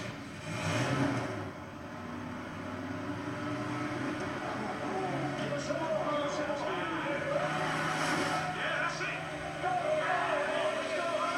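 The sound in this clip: A car's 4.1-liter engine with digital fuel injection runs with a steady, even drone, and voices can be heard over it throughout.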